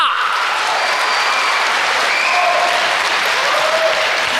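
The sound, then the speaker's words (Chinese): Loud, continuous audience applause at a live Chinese comedy stage show, a thick wash of many hands clapping at an even level from start to finish. “您的这个掌声太少了，掌声，掌声，掌声，掌声，掌声，掌声，掌声，掌声，鼓掌的全都发财了”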